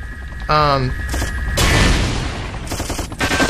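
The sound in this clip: Weapon fire in a video game, machine gun or rockets, comes as a couple of loud, noisy bursts after a short tonal blip.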